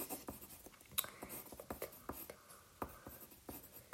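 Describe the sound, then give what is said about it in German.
Writing something down: faint, irregular scratching strokes and small taps that continue throughout, with no talk. “Muss ich mir erstmal aufschreiben.”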